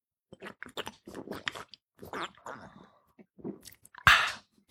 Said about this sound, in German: Denn jetzt muss ich erstmal ein Bierchen trinken.